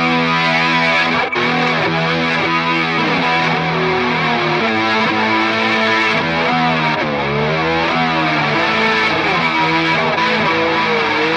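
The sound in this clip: Electric guitar run through a reversed effect into distortion gives a dense, loud wash of swelling, sustained chords that blur together continuously without breaks or voices.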